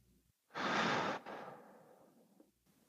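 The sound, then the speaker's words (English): A slow, deep breath is drawn in and let out during a guided relaxation exercise. A fuller breathy intake is followed by a longer, softer exhale that fades out. The breathing is quiet and there is no talk. “So nice deep breath in and out.”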